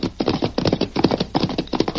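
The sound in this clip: Hoofbeats from two horses, Silver and Scout, gallop in a Lone Ranger radio drama, a brisk, continuous clip-clop of many loud, hollow thuds in a steady driving rhythm.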